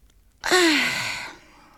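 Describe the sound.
A single drawn-out yawn from a person just waking, voiced and breathy, its tone sliding downward in pitch before trailing off into a soft exhale.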